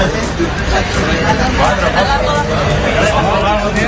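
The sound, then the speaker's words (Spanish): Crowd hubbub at the La Rosaleda stadium ticket office in the morning, as tickets sell out for a Málaga versus Las Palmas match. A loud, continuous babble of many overlapping voices. “Este es el sonido de la Rosaleda esta mañana.”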